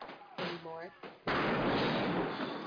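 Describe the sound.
A gunshot cracks out as one sudden loud blast after a brief moment of talk, followed by a dense wash of noise that holds at a high level to the end.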